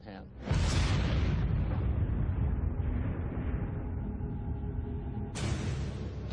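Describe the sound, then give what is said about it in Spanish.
An atomic bomb explosion erupts into a deep, loud, sustained roar after a brief quieter start. The rumble rolls on steadily, then swells again in a second burst near the end. “En apenas unos meses tuvo que tomar la dificilísima decisión de lanzar la bomba atómica sobre Japón.”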